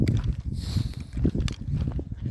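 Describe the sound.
Footsteps walk along a hiking trail in the Salpa Line area, a few dull, low crunching steps in a loose rhythm with no talk.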